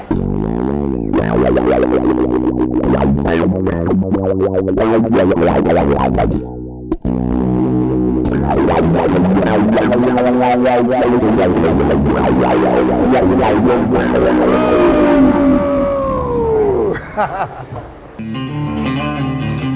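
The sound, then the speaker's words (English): Swirling, distorted electric guitar tones shaped by effects units produce spacey, chorus-laden noises, ending in sweeping pitch glides before a ragged fade. The sound stays loud and dense throughout, with wavering pitch and echoing layers. “Why don't you take us out with some crazy space noises to end this video?”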